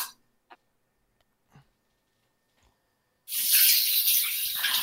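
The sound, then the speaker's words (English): Water runs from a tap as a whisk is rinsed at a sink. A few faint clicks come first in near silence, then a loud, steady hissing gush of running water fills the rest. “She's rinsing the whisk. Rinsing the whisk.”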